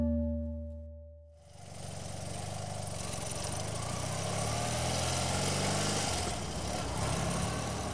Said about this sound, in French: Nous roulons en direction de la frontière afghane. La route nous semble interminable. Peu à peu, la piste disparaît sous le sable.